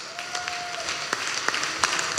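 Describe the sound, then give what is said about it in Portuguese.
Audience applause at a comedy roast show: a short burst of brisk hand claps over a steady crowd wash, with a thin sustained tone running through the first part. “Um aplauso para a minha tia Felícia.”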